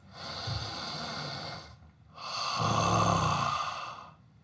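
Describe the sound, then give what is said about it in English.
A deep belly breath in two parts: a long, soft breathy inhale, a short pause, then a louder, longer exhale that swells and fades. “Let's take a nice, deep belly breath.”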